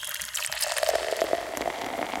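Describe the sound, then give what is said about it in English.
Tea pouring into a jar: a continuous splashing trickle of liquid runs steadily for about two seconds with a bright, noisy texture and no voices. “Here's a jar. Now I'm dumping some rot in it. Now I'm pouring some tea on it.”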